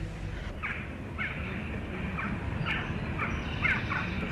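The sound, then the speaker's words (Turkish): Crows caw and squabble in a run of harsh, quick calls that follow one another at an uneven pace over a low rumbling background. The calls are fairly faint and no voices are heard. “Ne istiyor bu kargalar? Kavga ediyorlar.”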